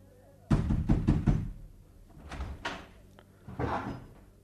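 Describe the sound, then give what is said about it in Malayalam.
A door is opened in a radio drama, starting with a loud burst of rattling knocks and handle noise, followed by a couple of softer thuds and scrapes. “വാതിൽ തുറന്നു കൊടുക്ക് വേഗം”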